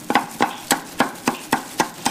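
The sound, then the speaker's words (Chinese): A knife chops crab meat in eight sharp, evenly spaced strikes at a steady, brisk rhythm, with nothing else heard. “剔出蟹肉将其剁碎”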